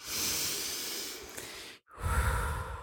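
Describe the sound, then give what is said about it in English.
A deep breath in through the nose and out through the mouth: a long, loud, airy inhale lasting under two seconds, a brief silent pause, then a forceful breathy exhale. “Let's take a deep breath in together. Ready? In through the nose. Is that what they say? In, in through the, nose, out through the mouth.”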